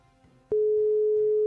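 A phone ringing tone sounds on the line: a single steady, mid-pitched electronic tone cuts in after a brief quiet stretch and holds unbroken to the end.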